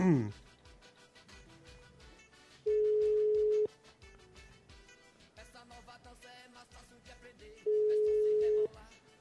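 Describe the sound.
Ringing tone on an outgoing phone call: two steady, level tones of about a second each, roughly five seconds apart, over a busy, fluttering background.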